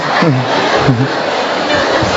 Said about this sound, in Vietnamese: Vỗ xin một công đoàn vỗ tay thật to chúc mừng.